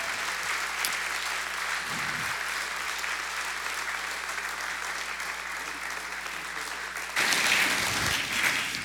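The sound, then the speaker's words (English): A church audience applauds to welcome a pastor during a service, sustained clapping from many hands that runs evenly for several seconds, then swells louder near the end. “And come on, let's make it loud in this room. Put your hands together and join with me to welcome Pastor Richard Hinojosa.”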